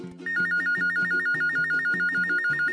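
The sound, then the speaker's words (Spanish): Telephone ringing with an incoming call, a loud, steady electronic warbling trill over quick low pulses, repeating evenly throughout after a brief quiet start. “Alguien está llamando.”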